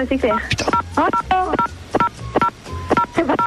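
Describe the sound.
Telephone keypad dialing tones, a quick series of short, clear beeps of differing pitch interleaved with a voice talking.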